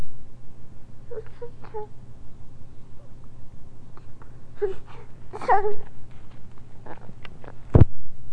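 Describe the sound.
A fussy baby late at night gives faint, scattered whimpers and short whiny cries over a low steady hum, with quiet gaps between them and a brief sharp knock near the end.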